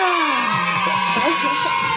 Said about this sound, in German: Ah, die 2 jubeln gerade richtig.